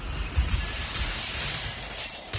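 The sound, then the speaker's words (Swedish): A glass window shatters after a thrown stone hits it, a loud, bright crash that runs into a sustained wash of tinkling, crackling shards as the glass falls to the ground. “En till. Glaset krossas, splittras när det rasar ner mot marken.”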